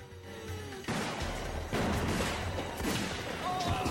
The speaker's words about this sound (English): Oh, double gun action. She's a great shot.